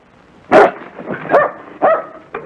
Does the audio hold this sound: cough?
no